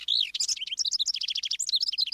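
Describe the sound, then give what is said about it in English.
A wren calls in a rapid, bubbly chatter of many high, quick notes that rise and fall in a tumbling run. The song stays loud and continuous throughout, with no other sounds. “The chatty wrens nest in cavities, including nest boxes.”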